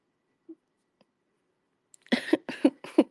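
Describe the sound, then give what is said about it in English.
A pet sneezes in a quick series of short, faint, sharp bursts that start after a mostly quiet stretch with a couple of tiny clicks. “Just sneezed all over me.”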